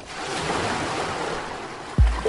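Gentle sea waves wash onto a beach in Denmark in summer as a soft, steady hiss of surf, and a sudden low tone cuts in near the end.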